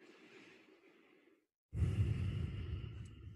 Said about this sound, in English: you're just going to concentrate on your breath, the rise and fall of your chest.